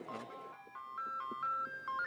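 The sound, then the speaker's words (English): Ice cream truck jingle as the van rolls through a working-class city neighborhood in the afternoon: a faint, tinny electronic melody of stepped chiming notes repeating in a simple tune. “As the afternoon ice cream truck rolls through the working-class Black and Latino neighborhood, South L.A. doesn't seem so menacing.”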